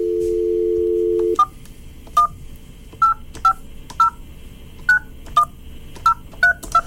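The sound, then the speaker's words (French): A telephone number is dialed on a touch-tone phone. A steady dial tone sounds first, then stops and gives way to a string of short, two-tone beeps pressed at uneven intervals. “Alors, on va tenter de joindre Madame Jocelyne Souci. À l'instant, on va composer.”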